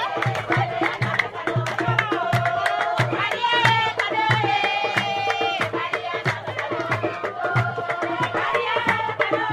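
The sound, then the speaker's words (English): A community crowd cheers and sings in jubilation to welcome a visiting footballer. High excited voices ring out over a steady pulse of sharp rhythmic beats throughout. “So great jubilation there”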